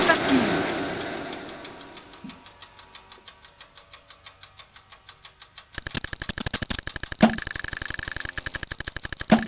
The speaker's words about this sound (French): Le rythme, on appuie sur cette touche violette, foxtrot. Et le tempo, 40 environ, chez la vitesse.